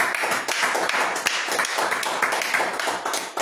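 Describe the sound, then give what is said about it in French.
An audience claps at a church service as it closes in prayer. The claps from many hands form a dense, steady run that lasts the whole stretch. “Amen. Amen. Acclamons.”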